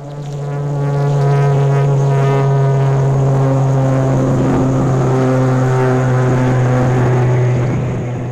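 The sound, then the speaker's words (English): Engine noise from a Republic XF-84H experimental aircraft: a thunderous, continuous droning roar with a strong low hum and stacked tonal harmonics. It swells in at the start, holds steady and loud throughout, then eases slightly at the end. “the remarkable thing about the XF-84H that turned heads was the noise it made.”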